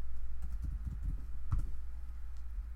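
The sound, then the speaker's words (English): Faint keyboard taps as a search is typed into the Tubi streaming app, a short, uneven run of soft clicks over a low background hum. “I typed in murder weapon, nothing came up. I typed in murder weapon 1989, and I have the Black Cobra three”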